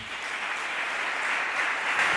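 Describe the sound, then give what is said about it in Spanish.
Sustained applause from an audience for a city sports councillor at a public event about a local football club, a steady, dense patter of clapping that runs the whole time without a break. “Aplauso para el concejal de Deportes, Félix Brocate”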